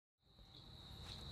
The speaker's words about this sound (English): eastern sedge frog, or eastern dwarf sedge frog.